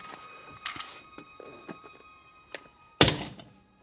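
A small, unloaded cast-iron bomb with capsules is thrown and lands with one loud, sharp thud, after a few faint knocks and rustles. The sound then fades to silence.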